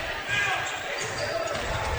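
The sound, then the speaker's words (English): A basketball is dribbled on a court during a game late in the contest, with a few thuds under a steady wash of gym noise and faint voices. “Sullivan with the basketball. Couple of dribbles.”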